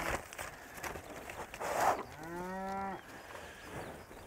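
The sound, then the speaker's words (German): Cattle on a large farm moo once in a long, low, harmonic call lasting about a second, preceded and followed by faint rustling and shuffling in the background. “Aber guck mal, wir haben über 300 Rinder.”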